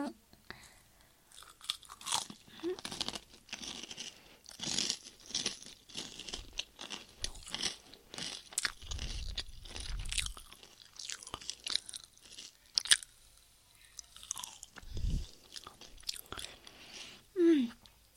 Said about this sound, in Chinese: 你先把这口吃了，来啊，吃掉，我也要吃